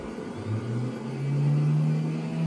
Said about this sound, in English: Engine's been run, so I won't need any prime. Start sequence is beginning now with energizing.